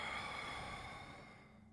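A slow breath is exhaled out through the mouth during a guided meditation breathing exercise: a soft, steady, airy whoosh that fades gradually over about two seconds, quiet and heard alone.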